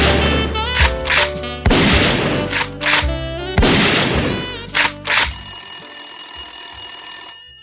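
Glock pistol shots fired into a snowman: several loud, sharp bangs mixed with a bright, sustained ringing tone that continues on its own after the shots stop.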